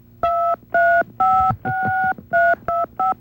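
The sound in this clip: Telephone keypad dialing tones from a caller on a phone line: seven loud, clear dual-tone beeps in an uneven sequence, one held noticeably longer than the others, with no talk over them.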